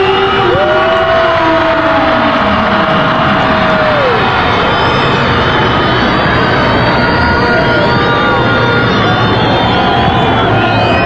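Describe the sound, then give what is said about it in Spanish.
Nicaraguan football fans cheering as their national team takes the field: a dense, steady roar of crowd noise with scattered whistle-like tones and voices running through it. “va Nicaragua para la cancha. Así lo recibe el público, los aficionados nicaragüenses.”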